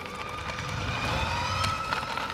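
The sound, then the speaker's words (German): Children's electric motorcycles whine during motorball training in Kuppenheim near Karlsruhe, giving a steady, layered, high electric hum with slight pitch shifts over a constant background rumble. “So klingt die nächste Generation Motorball. In Kuppenheim bei Karlsruhe trainieren Kinder auf Elektromotorrädern.”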